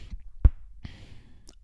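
A few short, sharp clicks from a person's wrist joint, isolated and separated by quiet gaps.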